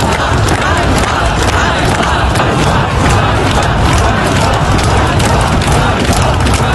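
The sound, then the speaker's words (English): Dense, unbroken roar of a crowd of street protesters demonstrating in Kyiv, many voices merging into one loud, steady wash of shouting and noise that never drops away. “That's the sound of demonstrators in Kyiv today.”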